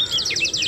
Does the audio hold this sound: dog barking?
no